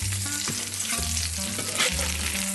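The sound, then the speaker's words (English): Salmon fillets searing skin side down in hot oil in a cast iron skillet, a loud, steady sizzle and crackle that holds unbroken throughout with no voices. “So my pan, my cast iron skillet, looks nice and hot. I'm adding the oil, and I'm going to add these fillets, and I'm going to put them skin side down,”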